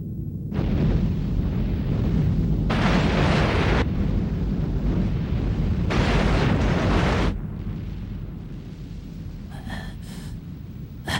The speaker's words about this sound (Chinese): 这是什么声音？ 哦，他们好像自己引爆炸药了。